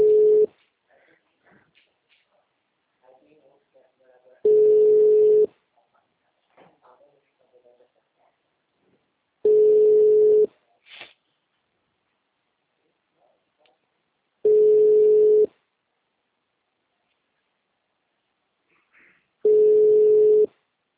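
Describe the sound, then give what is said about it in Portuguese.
Telephone busy signal on a Claro phone line: long, steady low tones repeat at regular intervals, each separated by several seconds of near-silence with faint small noises. “Este número está configurado para não receber recados. Obrigada por ligar para Claro. O número está ocupado.”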